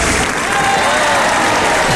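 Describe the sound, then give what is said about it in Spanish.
An audience gives a loud, dense ovation of continuous applause, with many hands clapping at once in an even, unbroken wash of sound. “Y la ovación del público, la ovación del público no puede faltar”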